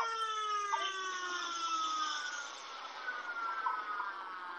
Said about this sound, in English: you heard the sirens.